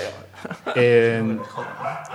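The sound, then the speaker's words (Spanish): A dog gives a single drawn-out, tonal bark with a whining quality, set among soft human voices. “El perro dice que sí. También es fan.”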